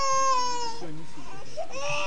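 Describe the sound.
A baby cries in loud, wavering wails, the first cry falling in pitch before a short break and a second rising cry.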